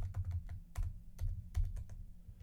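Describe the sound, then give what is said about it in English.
Quiet computer keyboard typing as a password is entered: many quick, uneven clicks in short bursts over a low, steady hum. “Please tell me I typed in the right password. I did type in the right password.”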